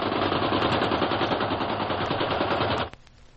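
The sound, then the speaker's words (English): Machine gun fired at a man swimming in the sea, one long, rapid, dense rattling burst at a steady loud level that stops abruptly near the end, leaving quiet. “They opened up on him with a machine gun.”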